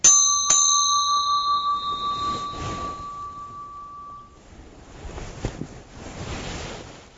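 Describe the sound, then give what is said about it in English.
A newly cast bell is struck, giving a clear, bright ringing tone that sustains and slowly fades over several seconds. Soft rushing background noise follows. “I'm enjoying that. I'm getting to try out a new bell. Working that, a new bell in.”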